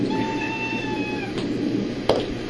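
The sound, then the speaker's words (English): A cat meows in one long, drawn-out call that holds a steady pitch, over a constant low background noise. “And that's our cat.”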